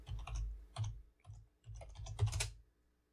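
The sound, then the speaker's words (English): Typing on a computer keyboard: quick runs of light plastic key clicks in a few bursts with short pauses, faint and alone, tapering off at the end. “I'm gonna type it. I'm gonna type it for us.”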